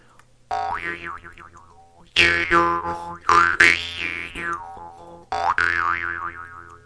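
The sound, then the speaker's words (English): Twanging jaw harp, a thin metal strip held against the teeth while the mouth shapes the tone. Several loud plucked bursts each carry a buzzing low drone and a wavering, wah-like overtone melody, with short gaps between them. “your mouth becomes a resonating chamber for the vibrations of that thin metal strip. So you just put it against your mouth and as you move your mouth around, the sound changes.”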